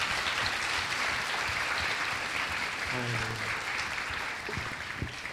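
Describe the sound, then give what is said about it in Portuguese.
Congregation applause rings out during a Sunday church service, a sustained wash of dense clapping that holds steady and eases slightly toward the end, with a brief voice rising above it. “Manda uma salva de palmas para Jesus, porque ele está merecendo.”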